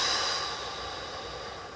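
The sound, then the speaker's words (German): A slow exhale during a breathing exercise of four-second inhale, hold and exhale: a steady, breathy hiss that fades gently over about two seconds, with no talk. “4 Sekunden einatmen, genau. 4 Sekunden halten. 4 Sekunden ausatmen”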